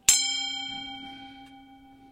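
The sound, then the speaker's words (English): A sound bowl, an Asian yoga tool, struck once. A bright metallic onset blooms into a clear, shimmering ring of layered overtones that fades slowly and steadily over about two seconds, with nothing else heard. “And it's a sound bowl, an Asian yoga tool.”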